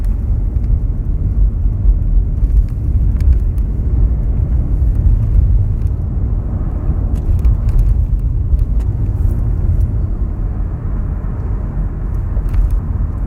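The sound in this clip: Continuous road and engine noise from a car driving and passing another vehicle on the right forms a steady, even, low rumble with no talk.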